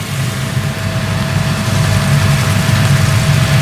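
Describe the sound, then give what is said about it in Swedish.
Steady engine rumble from several police motorcycles with blue lights passing along a procession route. It is a continuous low drone with a faint high whine, swelling slightly louder toward the end, with no voices. “det kommer nå flere motorsykler med blålys forbi”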